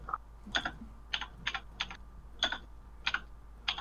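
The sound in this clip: Typing on a computer keyboard during a tabletop role-playing game session: a series of crisp, irregularly spaced keystrokes, some in quick pairs, over a faint steady low hum with no talking.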